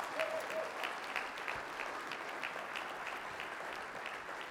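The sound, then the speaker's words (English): An audience in a church applauds to welcome a speaker to the platform, giving a steady, even patter of many hands clapping at a fairly soft level throughout. “Come on, put your hands together for Elder Clint Kiefer.”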